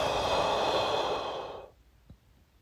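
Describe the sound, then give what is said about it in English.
Slow breathing in and out, heard as one sustained airy whoosh lasting under two seconds, then near silence broken by a faint tap. “Inhale. Exhale.”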